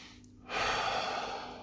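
A person breathes out from deep in the chest in one long, steady, breathy exhale that starts abruptly and tapers slightly at the end, with no talking.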